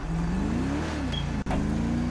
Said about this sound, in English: Maybe if I drive around a little bit, it might actually render in my scripts easier.